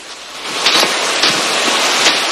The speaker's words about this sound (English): Drenched by another downpour, Joan